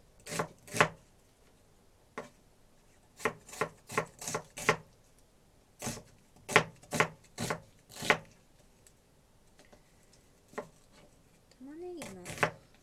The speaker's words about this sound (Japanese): 厚みはいつも気分です玉ねぎをゴロッと味わいたい時はちょっと厚めに切るし